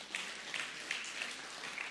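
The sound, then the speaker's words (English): Thin, faint hand clapping from a church audience for the worship team, only a scattering of people clapping in a light, uneven patter. “I'm sorry that hand clap was cheap. Only some of them liked it.”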